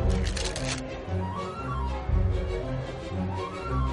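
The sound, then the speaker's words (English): Playing cards are sprung from hand to hand in a rapid, papery fluttering riffle, densest near the start, then trailing into softer rustling and brief crackles. “Another thing you can do is spring the cards, you know, just like this.”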